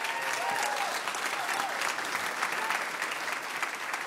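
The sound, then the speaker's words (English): Steady applause from a live radio show audience at the Museum of Commerce in Pensacola: dense, even clapping that holds at a constant level for about four seconds. “you all are a great audience. So give yourselves a big hand.”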